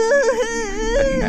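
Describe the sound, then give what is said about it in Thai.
A frightened person crying: a loud, high, wavering wail with a trembling, bending pitch that is sustained for just over a second. “จะร้องไห้ทำไมนักหนาเนี่ยฮะ”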